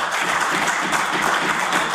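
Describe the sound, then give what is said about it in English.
Applause fills a legislative chamber, a dense, steady wash of clapping hands that stays loud and even throughout, with no voices standing out. “They applaud, Mr. Speaker.”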